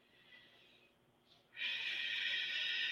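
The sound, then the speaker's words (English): Deep breathing during a relaxation exercise: a soft airy breath fades into a brief pause, then a louder, steady breath rushes out and holds to the end, all hushed and without talk. “So let's take a few deep breaths”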